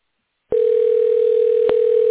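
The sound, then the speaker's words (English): A telephone tone plays while a call is transferred through a hospital phone menu. After about half a second of silence, a single steady, unwavering tone begins and holds at an even, fairly loud level. “Wait while I transfer your call.”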